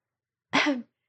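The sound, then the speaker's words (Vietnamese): One soft, brief cough from a person, a short breathy burst lasting under half a second, alone in otherwise silence. “Phan Trương Ngọc ho khẽ, nói:”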